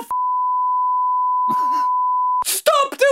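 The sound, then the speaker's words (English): A censor bleep sounds as a steady, high-pitched tone held for over two seconds, with a voice briefly heard under it and speech resuming right after it cuts off. “And we'll get the beep on this”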